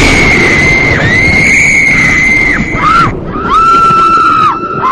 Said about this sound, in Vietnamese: Những tiếng kêu thét xé lòng của ba cô gái vang lên trong tiếng gió mưa.